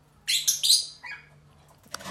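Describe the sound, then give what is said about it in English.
Pet birds chirping indoors, a few bright, high chirps in quick succession that trail off, then after a short pause a brief rattling clack as one bird works its beak against the cage bars. “Those are my girlfriend's birds. One of them is rattling the cage with his beak.”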